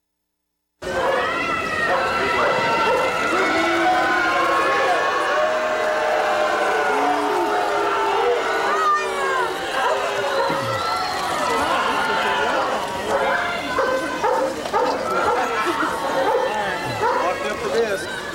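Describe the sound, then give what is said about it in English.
A crowd jeering and shouting as Timothy McVeigh is led out, with many overlapping angry voices forming a dense, continuous roar that stays loud from start to end. “And as he left, this is the sound of the crowds responding to seeing this man for the first time.”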